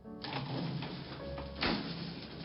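An elevator gate slides shut with a quiet, continuous scraping rush and one slightly louder jolt near the end.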